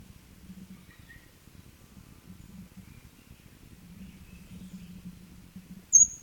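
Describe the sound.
A bird gives one short, sharp, high chirp near the end, after a few faint high calls and a low, quiet rustling background.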